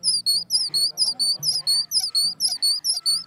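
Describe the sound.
A handmade bird-call whistle chirps in many quick, high-pitched tweets at an even, steady pace. Lower voices murmur faintly underneath the whistle.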